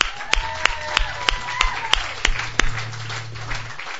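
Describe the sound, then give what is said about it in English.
Audience applause welcoming a performer at an open mic night: steady, dense clapping, with sharper claps recurring in an even beat throughout. “Please put your hands together. Welcome to the stage”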